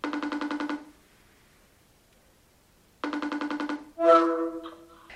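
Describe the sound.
Telephone ringback tone while a call is placed: two pulsing, buzzing ring bursts, each just under a second long, separated by about two seconds of silence, then a brief different tonal sound.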